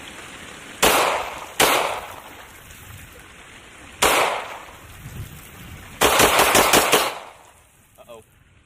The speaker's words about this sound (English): gonna take a measured amount of pond scum and put it in the gun and see if it fires. Ow, this thing kicks a little bit.